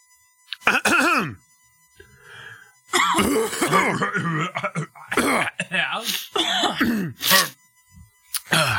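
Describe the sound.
Coughing and throat clearing, a string of rough, irregular bursts mixed with voiced, groaning rasps, fairly loud and with short gaps between them.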